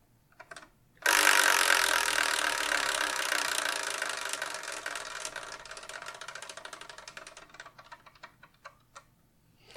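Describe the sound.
A selection wheel is spun. A dense ticking clatter starts abruptly, then gradually slows and fades over several seconds until only a few last ticks remain.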